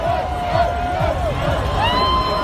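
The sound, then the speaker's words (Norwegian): Spectators at a ski race shout and cheer along the course as the course crew passes, with many overlapping voices rising into a loud, steady din. “Ja, og den stemningen her, det var rett og slett fordi folk trodde at det var løperne, men det var løypemannskapet som gikk opp løypa.”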